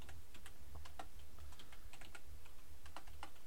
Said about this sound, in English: God, I can't type with one hand.